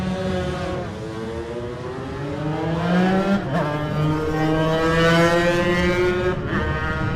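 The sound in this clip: A racing motorcycle sets off from the start of a Manx Grand Prix road race, its loud engine note climbing steadily in pitch, dropping briefly at two gear changes before rising again.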